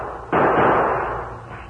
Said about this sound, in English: Ray fired several shots.